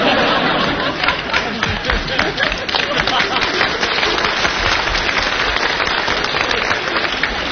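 Audience applause at a live comedy performance, a dense, steady crackle of many hands clapping without a break, with some chatter and laughter mixed in.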